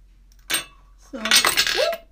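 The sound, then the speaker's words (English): A bottle of hair oil clatters against a bathroom sink in one short, sharp knock, followed by a brief vocal exclamation. “hair oil almost fell in my sink”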